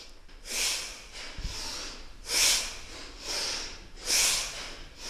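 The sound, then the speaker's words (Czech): Heavy, rasping human breathing during a movement and body-concentration exercise: a few long, hissy exhalations in a slow, even rhythm, each swelling and fading, with no talk. “Napadá mě, že kdybych nevěděla, že tohle je lidský dech, myslela bych si, že tu někdo drhne podlahu rejžákem.”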